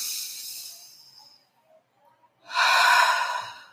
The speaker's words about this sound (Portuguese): Então, respira fundo.